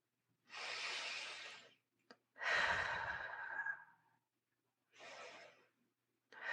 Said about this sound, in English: Soft in through the nose, soft out through the mouth.